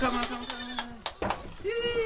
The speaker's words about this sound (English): Baby goats are called kids. Male baby goats are called bucklings.